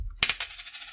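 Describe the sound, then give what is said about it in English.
A coin drops onto the floor, striking with a bright metallic clink, bouncing a few times, then rattling and ringing briefly as it settles, alone and fairly quiet. “That's the sound of a coin dropping.”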